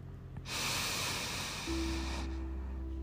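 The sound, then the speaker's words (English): A deep breath drawn in during a guided breathing meditation: one long, airy inhalation lasting about two seconds, steady and fairly loud, with a low sustained drone joining partway through. “So let's take another deep breath. Bring it from your toes, honey. Bring it all the way up from your toes and bring it to the top of your head. Breathe with that intention.”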